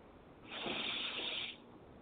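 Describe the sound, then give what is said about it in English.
A deep breath drawn in: one long, airy inhale lasting about a second, a soft breathy hiss that swells and then stops, heard alone with no talk. “And deep breath in.”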